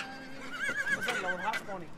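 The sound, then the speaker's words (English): A horse whinnies as it is herded down the quay of an Irish port to be loaded onto a ship: one loud, wavering, high-pitched call that rises and falls over about two seconds. “Herds of horses were driven down the quays of Irish ports to be loaded on board ships.”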